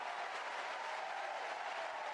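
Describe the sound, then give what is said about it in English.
A baseball crowd cheers after a swing and a miss, forming a faint, steady, even roar of crowd noise throughout. “And we'll let the crowd do the play-by-play on that one.”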